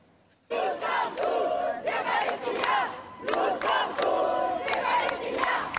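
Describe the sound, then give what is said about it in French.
A crowd at a pro-Palestinian rally on Place de la République in Paris chants loud, rhythmic slogans in repeated bursts, many voices shouting together with short pauses between phrases. “Et pourtant, à Paris, euh, plusieurs milliers de personnes se sont rassemblées place de la République”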